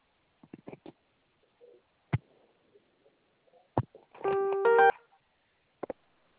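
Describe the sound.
A single telephone keypad tone sounds after zero is pressed on an automated loan-approval call. The tone is brief, about half a second, and stands out among a few faint, short clicks on an otherwise quiet line.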